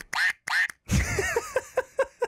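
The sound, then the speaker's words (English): Squeaky quacking of a duck toy squeezed by hand: many short, loud, nasal honks in quick succession. “This was a gift from one of my buddies, and just like Claire's comment, it quacks when you press it”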